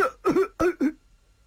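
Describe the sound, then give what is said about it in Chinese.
A storyteller imitates a wounded man's cough with a few short, voiced, throaty bursts in quick succession, then silence. “刘楚天还一个劲儿咳嗽。”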